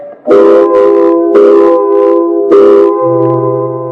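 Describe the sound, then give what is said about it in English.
A loud factory whistle sounds at quitting time, one long steady harmonic blast that holds through the whole clip. A few hissing surges rise over it, and a low hum lingers at the end. “Came quitting time, there was a whistle. Loud enough to buckle your knees and send waves up your spine.”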